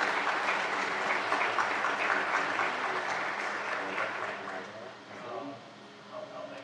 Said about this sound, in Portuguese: E eu acho que podemos aprovar esta moção por aclamação.